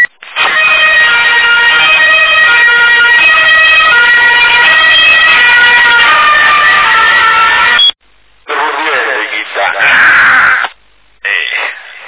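An old-fashioned whistle siren on a passing vehicle, heard as a recording, sounds a loud steady tone rich in harmonics for about eight seconds, then cuts out and returns in three shorter bursts separated by silences.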